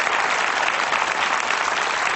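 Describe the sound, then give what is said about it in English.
Audience applause, thick and even, continuing without a break through the short stretch, with no talk or cheering on top. “Yeah, you wanted to applaud. Go ahead.”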